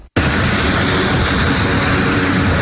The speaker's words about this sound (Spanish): Así salía el avión que llevaba la primera ayuda a Venezuela desde Puerto Rico el miércoles en la tarde.